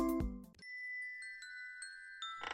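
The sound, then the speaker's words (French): Refrigerator alert chime: a few bright electronic dings ring out and sustain over one another after a brief burst of other sound. “Le frigo sonne. Il est presque vide et certains aliments sont périmés.”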